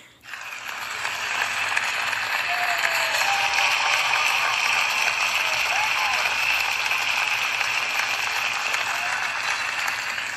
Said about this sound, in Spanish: ahí está nuestro público con nosotros, aplaudiéndonos por nuestra buena labor que tenemos para nuestro público y nuestros oyentes.